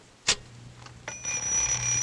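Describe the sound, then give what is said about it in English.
A clock rings: one sharp click sounds early, then a bright, high metallic ringing starts and keeps going steadily to the end. “not that crazy clock again”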